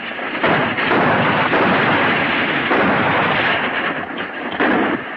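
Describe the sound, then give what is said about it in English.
Gunfire from the back of a moving wagon at pursuing bandits: a loud, continuous rumbling roar with a few sharper reports breaking through it. “Pete and John continue to fire on the bandits trailing them”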